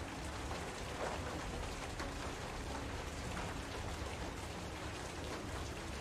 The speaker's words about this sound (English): It's just the wind and rain make it difficult to do things.